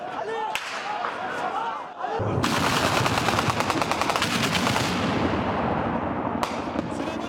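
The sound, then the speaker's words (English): Heavy gunfire during a military coup attempt in the capital Ankara, with Parliament under fire: loud, dense bursts of rapid automatic shots that grow into a near-continuous crackling barrage lasting the whole clip. “At the time, fighter jets were seen flying over the capital Ankara, and Parliament came under fire.”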